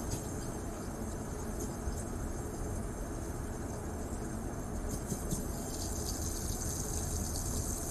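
Water runs from a push-button tap in a steady, even rushing stream, moderately loud and unbroken for the whole stretch, with no talking over it.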